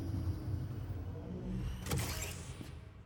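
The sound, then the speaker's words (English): A fictional ground car whirs as it slows down in a tunnel, a low electric drone with a faint high whine and a brief hissing burst near the end. “When he reached the far end of the hall, he found the ground car waiting for him. Spin got in and it zoomed off down the tunnel. It's slowing down.”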